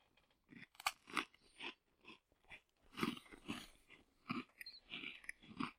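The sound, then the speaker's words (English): Someone bites into and chews a graham cracker flavored cookie: a quiet series of many crisp crunches in an uneven rhythm, with no talking. “I'm going to eat it traditionally. I just wanted to see the cookie itself. It says around the back, graham cracker flavored cookie.”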